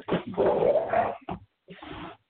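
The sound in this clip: A dog whimpers and growls in a rough, throaty run lasting about a second, then gives two shorter bursts after brief pauses, at moderate loudness with no talk.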